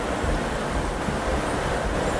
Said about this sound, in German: Also dieses Grundrauschen ist nicht die Autobahn, sondern wirklich das Meer, diese Ostsee.